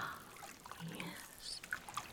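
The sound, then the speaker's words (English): Faint trickling and dripping of water as scrub is rinsed off someone's hands, soft and intermittent with a few small splashy drips toward the end. “Okay, I'm gonna rinse the scrub off your hands now.”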